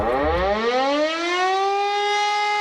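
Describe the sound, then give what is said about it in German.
A civil defense warning siren sounds during Germany's nationwide warning day in Berlin. It is a loud, harmonic-rich wail that climbs in pitch at the start and then holds a steady tone, heard alone. “Um 11 Uhr werden auch in Berlin alle 420 Sirenen ausgelöst,”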